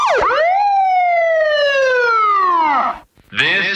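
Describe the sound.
A loud police car siren wail sweeps sharply upward, then glides slowly downward for a few seconds before cutting off, followed by a short harsh burst.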